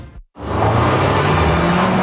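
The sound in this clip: An Audi car driving: after a brief moment of silence, a smooth engine and road hum swells in quickly and then holds steady and fairly loud.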